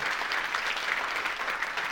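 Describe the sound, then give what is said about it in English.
Audience applause for a man at a business gathering, a steady dense wash of clapping lasting about two seconds with no voices over it. “let's give a round of applause for Richard.”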